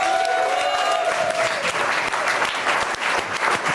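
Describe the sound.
A studio audience on a French talk show applauds with loud, dense, continuous clapping that holds steady throughout.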